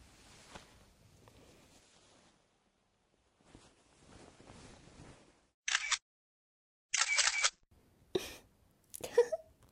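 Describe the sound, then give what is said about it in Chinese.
A camera shutter fires a few quick, crisp clicks in short bursts, following faint rustling and movement. “这下变态哥哥变态样子全都被我拍下来了，有了这些照片， 就不怕你以后不听话了。”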